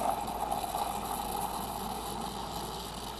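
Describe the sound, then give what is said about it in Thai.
A milk frother whips milk for coffee with a steady, continuous whirring hiss that holds an even level throughout, without any talking. “เดี๋ยวเราจะตีฟองนมก่อนนะครับแล้วก็ทำการใส่ฟองนมด้านบนนะครับ”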